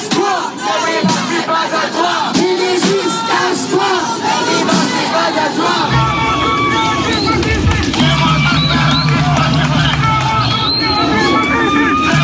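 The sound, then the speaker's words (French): Protesters at a demonstration chant and yell hostile slogans, a loud, dense and continuous crowd of voices that stays at full strength throughout. “ils ont été accueillis avec des slogans hostiles par les manifestants. Écoutez.”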